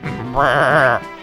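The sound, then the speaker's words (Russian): A goat bleating, from scruffy goats with torn coats grazing dusty grass by a pavement: one loud, wavering call of about half a second between quieter sounds. “Козлы с драной шерстью на боках щипали пыльную траву у тротуара, трясли огрызками хвостов.”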